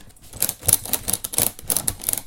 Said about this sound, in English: he takes two thick straps, wraps them around the sides, and ratchets them to squeeze the top flaps together.